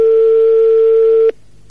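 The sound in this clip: A telephone ringback tone heard while a call is being dialed, one loud, steady electronic hum that holds for over a second and then cuts off abruptly.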